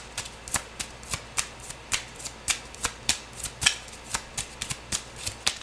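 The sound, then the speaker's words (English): Tarot cards being shuffled and drawn during a reading, many crisp snapping flicks in a fairly regular rhythm, with no voices. “May I have one more card? Let me take one more. I'm going to take another one.”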